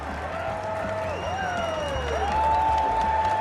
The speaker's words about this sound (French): Regardez ce public, on vous laisse écouter ce public merveilleux suédois.